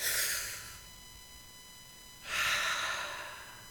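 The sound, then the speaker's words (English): A person takes a deep breath during a relaxation exercise: two airy, breathy bursts separated by a quiet pause, the second one longer and fuller, with no talking. “put it to the side, lean back a minute, take a deep breath with me.”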